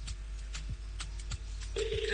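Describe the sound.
Ringback tone of an outgoing phone call enters near the end as a steady mid-pitched tone. It plays over a dense, noisy background with a few soft thuds before it.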